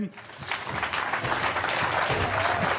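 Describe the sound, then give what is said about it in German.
An audience at a live band concert claps in sustained, dense applause that holds steady and loud throughout, with a voice audible underneath. “jetzt müsst ihr noch mal ein bisschen klatschen”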